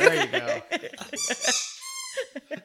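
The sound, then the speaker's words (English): A dog's squeaky toy squeaks during play, giving several sharp, high-pitched squeaks of varying length, mixed with softer rustling and movement noises. “Next 10 minutes of random squeaks.”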